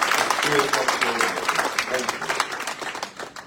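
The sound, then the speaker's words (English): In-person audience applause, a round of crowd clapping with voices over it, tapering off toward the end. “And all the people here in person are going to give you a big round of applause and say, thank you for joining us.”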